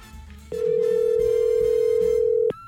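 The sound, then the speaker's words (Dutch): An outgoing telephone call rings out with a single steady, mid-pitched ringback tone lasting about two seconds, heard alone against a faint background with no talking. “Als hij niet ook nog overgaat. Kijk, dan gaat het helemaal goed. Ja, we gaan dus bellen met Wochmeer.”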